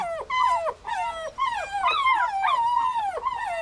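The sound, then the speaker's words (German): Puppies whine and yelp as they greet an older dog, producing many high, overlapping calls that often slide downward in pitch. The excited whimpering runs almost continuously and fairly loud. “Hundewelpen begrüßen ihren großen Bruder, der sich nur langsam an das neue Leben unter seinesgleichen gewöhnt.”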